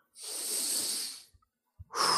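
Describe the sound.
Deep breathing in and out: a long, airy breath lasting about a second, then a pause broken by a couple of faint soft clicks, then another breathy rush at the end.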